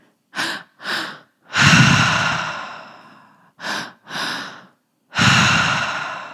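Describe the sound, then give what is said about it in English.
Triactive breathing through the mouth: two short, sharp inhales, belly then chest, followed by a long, loud breathy exhale out the mouth. The pattern plays twice, alone, with no talk. “So we are going to do the triactive breath. That is two inhales through the mouth, that is belly, chest, and then we exhale out the mouth as well.”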